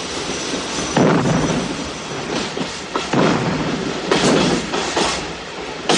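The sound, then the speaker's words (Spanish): A train carrying soldiers near the end of the First World War rolls along, a steady rumble broken by repeated surges of rhythmic clickety-clack wheel noise, with no voices. “Los soldados viajan en un tren vigilados por un superior y todos van dormidos menos uno de ellos, que mira el paisaje por la ventanilla.”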